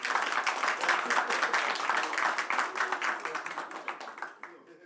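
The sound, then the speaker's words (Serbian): A studio audience at a music show claps in a dense, brisk patter that thins out and fades away toward the end. “Super, još jedan veliki aplauz,”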